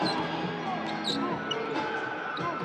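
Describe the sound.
A basketball dribbled during a professional game, its bounces faint under a steady, dense wash of arena crowd noise.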